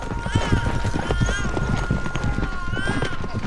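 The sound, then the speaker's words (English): A riderless horse gallops past in a quick, steady clip-clop of hooves, with a sustained tone and other sound running underneath. “his horse gallops on without him.”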